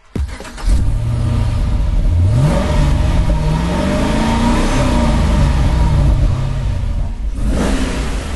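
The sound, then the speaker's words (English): A car engine revving, its low rumble swelling up after a quiet start and then climbing in pitch into a strong, sustained droning roar that wavers and eases slightly toward the end. “we're going to finish with a different kind of music. Here's the sound of Richard's car once again.”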